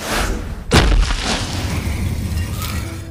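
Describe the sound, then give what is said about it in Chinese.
Heavy impact of a stone door in a secret passage being struck open with a palm blow. A single sharp, deep boom is followed by a lower grinding rumble that slowly fades. “此处上方是一道石门，苏沐雨运起真气拍出一掌，将那石门打开。”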